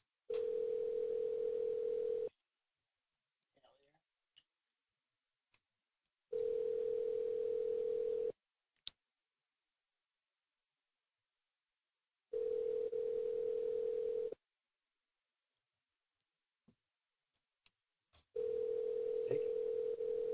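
Steady telephone tone while calling a tire shop, sounding in four even bursts of about two seconds each, separated by longer silences with a few faint clicks between them. No one speaks.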